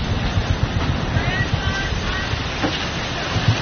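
Rough sea with heavy swell rushes around a sailing boat's cockpit under sunshine. A steady broad wash of water and wind is punctuated by low, irregular thumps.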